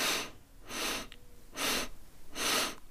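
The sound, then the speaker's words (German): Breathing through the nose gives four separate airy, hissing breaths, evenly spaced and fairly soft, with quiet gaps between them and no talk. “Ich atme zum Beispiel 4 Sekunden ein, alles durch die Nase.”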